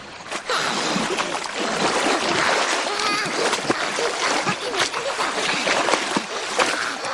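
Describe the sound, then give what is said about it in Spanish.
Water splashing among river rocks as Gollum tries to catch fish: irregular wet slaps and sloshing ripple on throughout, with a few sharper splashes standing out. “Entre las rocas de un río, Gollum intenta pescar.”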